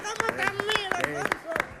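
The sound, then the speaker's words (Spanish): Hand clapping in flamenco palmas style: crisp, sharp claps in a quick, lively rhythm beneath a voice talking. “Yo estoy de palmero aquí. Como sí, es verdad, ¿no? Cómo aplaude, ¿eh? Aplaude con nota. Y luego solo con dos manos.”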